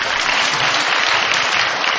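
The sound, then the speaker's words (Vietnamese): An audience of Buddhist lay followers applauds at a dharma talk after a question is praised. The clapping is dense and continuous, an even wash of hands with no pauses across the short span. “Phật tử cho Phật tử tràng pháo tay.”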